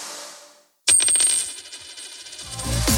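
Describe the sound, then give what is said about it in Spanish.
A euro coin drops onto a hard surface with a sharp metallic clink and bright, fading ring, then a short run of rapid rattles as it settles. “¿Lo oyes? Es un euro que cunde.”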